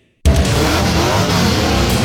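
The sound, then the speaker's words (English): Winged sprint car engines revving at full throttle at a speedway race night, a loud, sustained roar that bursts in abruptly after a brief moment of silence and holds steady to the end. “Get ready for an action-packed full-throttle night of racing tonight when the Action Sprint Tour races into Buxton Speedway with the Winged Sprint Car Series”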